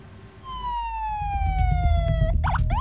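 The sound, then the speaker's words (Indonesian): An ambulance siren arrives at a blast site near a hospital in Gaza City. A loud sustained tone drifts slowly lower, then breaks into a fast warbling wail over low rumbling noise. “Sejumlah ambulans berdatangan ke lokasi ledakan di dekat rumah sakit Al-Wafa, kota Gaza.”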